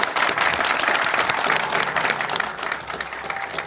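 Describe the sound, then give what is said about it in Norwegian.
Audience applause as a guest is welcomed on stage, a dense, steady wash of many hands clapping that stays loud throughout. “Applaus da!”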